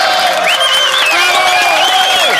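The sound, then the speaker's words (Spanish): Crowd applause and cheering for a contest winner: a dense, continuous wash of clapping with crowd voices, loud throughout. “Ganadora y fuerte los aplausos para Laura Rengifo.”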